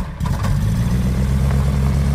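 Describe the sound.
A gyroplane's four-cylinder Aerotax engine driving a pusher propeller runs in a steady, loud, low droning rumble with a dense buzzing texture, holding an even level throughout after a brief softer moment at the very start.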